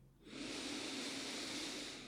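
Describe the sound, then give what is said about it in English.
A huge, deep breath drawn in during a guided breathing exercise: a soft, steady airy hiss that lasts about two seconds, quiet and alone. “And let's pause here and take a huge breath in.”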